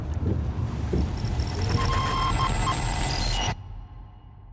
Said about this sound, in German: Wir sind im Auto, schlaf weiter.